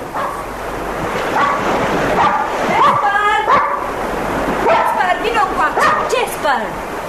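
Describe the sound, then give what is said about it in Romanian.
A dog barking and yipping at the shore by a seawall and rocks, giving a few sharp barks mixed with whiny yelps while people talk over it. “Eu cunosc câinele. Nu-i al dumitale.”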